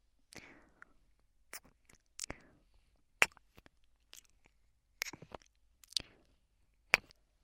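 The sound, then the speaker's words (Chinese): Quiet, wet lip-smacking kisses from a clingy girlfriend in an intimate roleplay. Several short, soft popping smacks are spaced irregularly against near silence. “我再多亲一口，找找感觉。这边也试试。”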